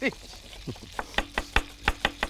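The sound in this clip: Onions chopped with a knife in a kitchen: a fast, steady run of sharp, crisp chops on a board, following a brief voice at the start.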